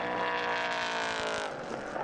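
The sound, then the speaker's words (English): A race car at the Portimao circuit shifts down through the gears as it approaches a turn. The engine roars loudly and continuously throughout, with its tone wavering slightly as the revs change. “down through the gears with Tony Wells as he approached turn 14”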